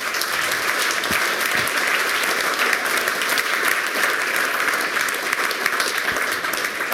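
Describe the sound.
An audience applauds a speaker at a talk with steady, sustained clapping at an even volume from start to finish.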